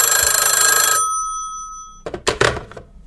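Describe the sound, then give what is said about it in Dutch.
A telephone bell rings for an outgoing call: one loud, bright, trilling ring lasting about a second, then silence, followed by a few short, noisy bursts. “We gaan er even bellen.”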